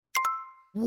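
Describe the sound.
Two quick bright chime strikes from a language-learning app's sound effect, the second leaving a clear ringing tone that slowly decays before a voice begins to speak.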